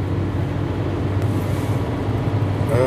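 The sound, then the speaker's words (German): Steady low rumble of a car driving, recorded from inside the vehicle: a continuous droning road and engine noise, even in loudness, with no talk. “Sorry, ich fahre, deshalb klingt das gerade hier so ein bisschen abgehackt.”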